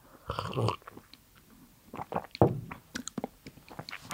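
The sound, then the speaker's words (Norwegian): Coffee being sipped with a brief slurp, followed by breathy swallows and a scatter of small wet mouth clicks, all fairly quiet and without talk. “Sorry, jeg må drikke kaffe.”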